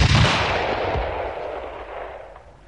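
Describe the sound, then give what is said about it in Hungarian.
A single very loud rifle shot fired at starlings: a sharp, booming blast whose rumbling tail slowly fades away over a couple of seconds, with no voices. “Lassan már fel sem rebbennek, ha rájuk lövök, pedig akkorát szól ez a puska, mint egy ágyú.”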